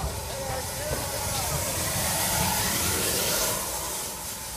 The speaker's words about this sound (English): Well, that was a lovely green Great Western engine